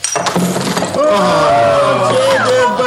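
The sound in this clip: A hammer blow smashes something open with a sharp shattering crash, followed by a second heavy burst and a long spell of clinking, rattling clatter under a steady tonal hum.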